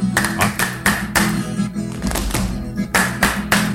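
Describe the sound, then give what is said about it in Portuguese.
Catira dance foot-stamping and hand clapping: many sharp, evenly spaced stamps and claps beating out a steady rhythm. “Vocês gostaram do sapateado? É bom, né? E as parmas aí, ó, as parmas. Marca o ritmo, né?”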